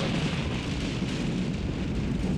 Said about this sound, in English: Oh, his megabyte has exploded.